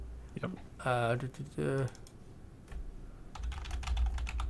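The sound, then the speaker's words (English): Keys clack on a computer keyboard as a search phrase is typed, with a quick run of sharp clicks following a short stretch of talk. “Okay, we will type lose the game.”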